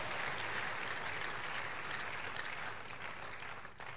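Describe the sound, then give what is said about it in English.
A church audience at a morning prayer service gives a round of applause, a dense, steady patter of many hands clapping that holds for several seconds and then thins and fades toward the end, with no talking. “If you can, give Jesus your big hand one more time.”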